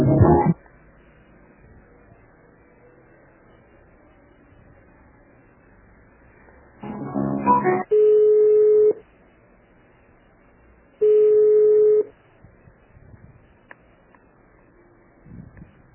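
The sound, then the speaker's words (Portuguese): Telephone ringback tones play while a phone call is transferred: two steady, mid-pitched tones, each about a second long and a few seconds apart, with a short burst of other sound just before the first. “Aguarde, estamos transferindo sua ligação.”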